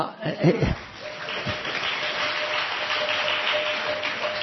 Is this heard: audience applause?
yes